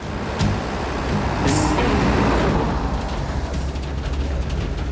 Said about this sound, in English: Tim drives Jean through the city in his truck.